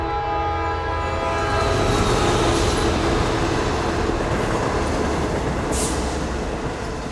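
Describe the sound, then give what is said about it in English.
A train passes on a line that runs several times a day, its heavy, steady rail rumble filling the whole clip with a sustained horn tone held over it throughout. “And then what you hear is the train runs here more often.”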